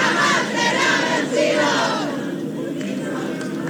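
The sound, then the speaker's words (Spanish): Crowd shouting and cheering at Chilean candidate Yanet Jara's campaign event, a loud dense roar of voices that eases slightly after a couple of seconds. “gritan cada cierto tiempo a la espera justamente de las declaraciones que va a dar la candidata Yanet Jara acá, en este escenario. Escuchemos parte del ambiente que se está dando hasta ahora acá.”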